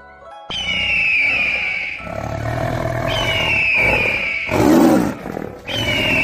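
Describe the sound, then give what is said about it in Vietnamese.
Huge wild beasts roar in fog at the entrance to a canyon, several deep, loud, growling roars following one another almost without pause. “trong sương mù ẩn ước có thú ảnh to lớn hiển lộ, tiếng thú gào không ngừng truyền đến.”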